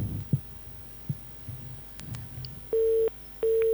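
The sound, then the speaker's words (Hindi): A phone busy tone sounds after a call is disconnected: faint low noise gives way to two steady, evenly pitched beeps near the end, each lasting about a third of a second. “हमारे collar जो हैं वो शायद के call cut हो गई है”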